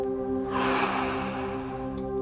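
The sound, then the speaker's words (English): A deep breath in and exhale during a guided prayer: a soft, airy hiss swells and slowly fades over a steady, sustained musical drone, with no talk. “Deep breath. Exhale.”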